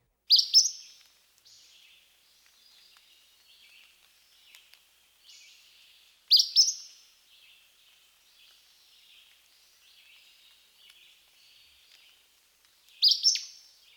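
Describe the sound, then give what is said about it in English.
Acadian flycatcher two-noted song: three loud, sharp, high-pitched bursts spaced several seconds apart, with faint, thin twittering between them. “This two-noted song is typically repeated with little or no variation. Here's the Acadian flycatcher again.”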